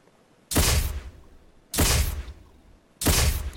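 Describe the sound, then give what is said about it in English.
Three gunshot blasts played from a soundboard as a salute, evenly spaced about a second apart. Each is loud and sharp with a decaying tail, and no one talks. “So I'm going to give you a three shot salute here. All right, everybody join me in giving Steve a three-shot salute for his return.”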